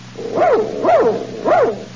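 A dog barks three times at even intervals. Each bark is a loud, tonal, yelping bark with a short rise and fall, and nothing else is heard.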